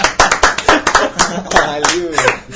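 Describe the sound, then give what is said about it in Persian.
Rhythmic hand clapping keeps time to a song, many quick, loud claps in a steady beat, with a voice and laughter entering near the end. “خودت هم دست بزن”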